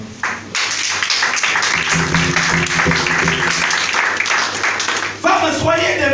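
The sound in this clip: An audience breaks into applause, thick clapping that begins abruptly, holds at a steady level for roughly five seconds, then cuts off as a voice starts.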